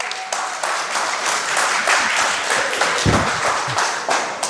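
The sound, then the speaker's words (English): An audience applauds a speaker as he is introduced, with dense, continuous clapping that stays at a steady level throughout, broken only by an occasional low thump. “A big hand, ladies and gentlemen, for Mr. Robert Suster.”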